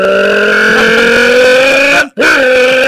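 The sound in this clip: A voice imitates a Viper sports car engine revving inside a soda can, giving a tinny, buzzing drone that holds steady, cuts out briefly near the end, then resumes.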